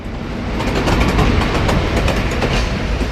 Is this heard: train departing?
yes